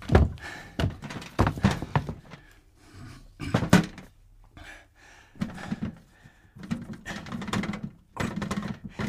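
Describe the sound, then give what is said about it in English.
Dull thunks and scrapes of an old tin being pulled out from the back of a space and set down: many irregular hollow knocks and shuffling clunks, some sharp and loud, others soft, with no voices. “There's something here. What is it? It's at the back. Can you reach it? It's an old tin.”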